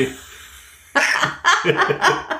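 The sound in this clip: A sneeze bursts out abruptly during a casual conversation, followed by a few shorter breathy bursts of sound.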